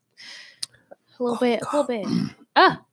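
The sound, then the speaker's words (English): Someone clears their throat with a short raspy burst, followed by louder voiced, groaning vocal sounds and a final strong vocal push. “Got something stuck in my throat.”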